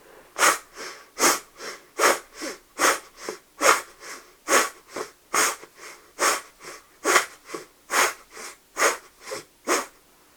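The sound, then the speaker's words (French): Rhythmic nasal breathing through the left nostril, with the right nostril held closed: many short, forceful, airy sniffing bursts in a steady, fairly quick pulse, each sharp and breathy, with no talking. “Fermez la narine droite avec le pouce. Et respirez doucement par la narine gauche.”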